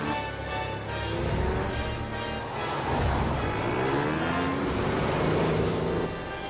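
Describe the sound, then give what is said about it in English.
A truck and a motorbike speeding toward a river crossing, heard as a continuous engine roar that swells a little midway, holds steady, then drops slightly at the end. “Miss Clavel zooms towards a river crossing. The truck and the motorbike close in on it from the opposite side.”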